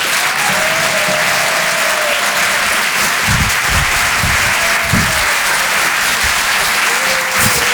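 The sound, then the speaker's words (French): A comedy show audience applauds a comedian with dense, continuous loud clapping and a few whistles ringing out above it. “Faites un maximum de bruit, s'il vous plaît, pour Sébastien Wüst.”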